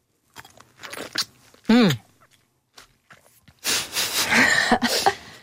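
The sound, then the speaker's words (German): Biting into a juicy plum and chewing it: one brief, loud bite early on, then a longer stretch of wet, crunchy chewing with uneven loudness. “Jetzt beiße ich mal hier in diese Pflaume rein.”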